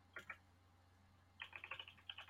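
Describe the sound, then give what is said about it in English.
Typing on a computer keyboard: faint keystrokes, a couple of isolated clicks followed by a quicker run of many taps. “I wish I could type right now. Yeah, we can hear you clitter clatter.”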